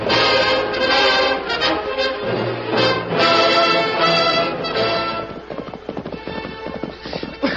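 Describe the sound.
Horses gallop at full speed with loud, rapid, steady hoofbeats running through the whole stretch, thick and continuous before thinning slightly toward the end.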